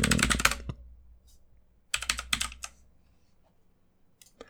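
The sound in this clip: Typing on a computer keyboard during an online search: two quick bursts of rapid, clicky keystrokes separated by a pause, then a few isolated taps, fairly faint and with no talk.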